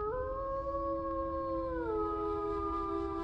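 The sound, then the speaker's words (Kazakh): A grey wolf howls at night on the steppe: one long, sustained, loud tonal howl that holds level and then drops in pitch partway through, over a steady low background rumble. “Қап-қара түн, қырда көкжал ұлыған.”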